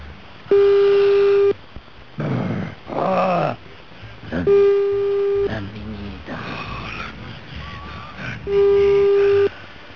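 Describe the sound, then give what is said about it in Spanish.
Phone ringback tone of an unanswered call: three steady one-second tones, evenly spaced about four seconds apart, with people talking in the gaps between rings. “Ahí la estamos llamando,”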